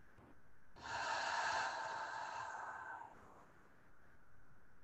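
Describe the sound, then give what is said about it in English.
A group breathing out together through the mouth in a breathing exercise, making one long, soft, breathy release that rises in, holds for a couple of seconds and then fades. “Starting by all releasing the breath through the mouth.”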